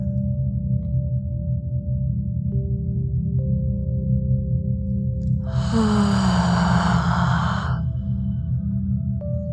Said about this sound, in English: Two more slow, deep, full body breaths into the nose and out of the mouth.